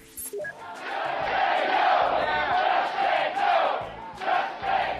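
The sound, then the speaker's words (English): Healthcare protesters chant outside a town hall in Tampa, Florida. After a few brief knocks at the start, a massed chant swells and carries on loudly in repeating phrases. “Now, that's the sound of a healthcare protester chanting outside a town hall in Tampa, Florida on August 6th of this year.”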